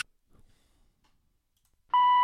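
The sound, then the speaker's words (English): Telephone intercept tone for a call that failed: after near silence, a loud, steady electronic beep starts abruptly near the end and holds at one pitch. “We're sorry. Your call cannot be completed as dialed.”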